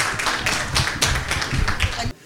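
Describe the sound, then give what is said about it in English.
An audience claps for a crooner taking the microphone: loud, irregular hand claps with sharp individual strikes that stop abruptly just before the end. “On l'applaudit bien fort, Eric Lupinetti.”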